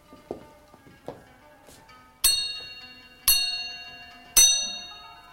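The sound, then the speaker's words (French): A small bell rung to summon a steward strikes three times in an even rhythm, each bright, clear ring decaying slowly. Two softer taps come before the rings. “Attendez, attendez, je vais sonner mon intendant.”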